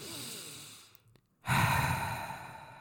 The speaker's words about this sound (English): I'd take a deep breath in.